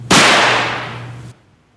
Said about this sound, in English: And who is lighting fireworks there? We are. We're in the bathroom. It's in the bathroom.